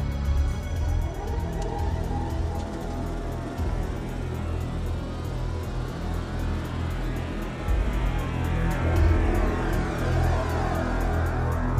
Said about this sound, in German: dann gib mal Gas. Ja, bin schon dabei.